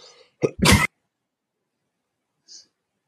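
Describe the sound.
Coughing from a dry throat: two quick, harsh bursts, the second louder and longer, then silence and one faint short sound afterwards.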